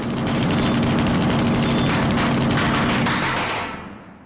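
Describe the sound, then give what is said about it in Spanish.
Sustained submachine-gun fire from an armed robber: a dense, loud, continuous burst of rapid shots lasting about three and a half seconds before dying away. “El atracador carga la metralleta y sigue disparando.”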